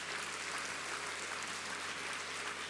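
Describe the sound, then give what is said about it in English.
Audience applause during the closing night of a church revival conference: steady, dense clapping that holds an even, fairly faint level throughout, with no talking over it. “Come on, let's give that previous generation a hand clap for getting us”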